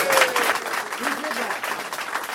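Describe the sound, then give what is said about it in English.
Audience applause honoring the people who organized the event twenty years earlier, a busy clapping texture with voices talking over it throughout. “So let's have a round of applause for people who put this together 20 years ago and made it great.”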